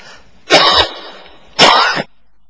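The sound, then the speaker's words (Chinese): Two harsh, loud coughs come about a second apart, each short and breathy, with quiet in between and no talking. “咳嗽你不要挂虑，交给主。”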